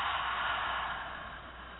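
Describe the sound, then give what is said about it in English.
Long, soft breathing during a guided deep-breathing exercise, a steady airy hiss without voice that slowly tapers off. “Another deep breath in and out.”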